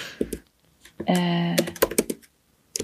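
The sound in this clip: Typing on a computer keyboard during a quick web search, irregular clusters of light clicks and taps, broken by a short vocal sound midway.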